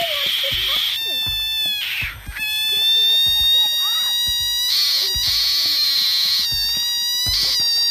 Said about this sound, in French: Voilà le cri de cette grenouille, plutôt effrayant, et il s'agirait, selon certains comportementalistes animaliers, d'une manifestation de son stress.